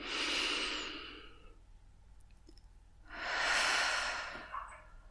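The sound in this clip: Deep breath in and out during a guided meditation: two long, soft, airy breath sounds, one at the start and one after a quiet pause, each swelling and fading with a hissy texture and no talk.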